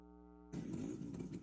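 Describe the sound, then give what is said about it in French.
Buzzing engines of thousands of Vespa scooters parading through the historic centre of Rome for the scooter's 80th anniversary, a dense, steady mid-pitched drone of many small motors that starts abruptly and holds loud throughout. “Des milliers de Vespa défilent dans le cœur historique de Rome. Pour les 80 ans du mythique scooter italien, des passionnés venus du monde entier participent à la plus grande parade.”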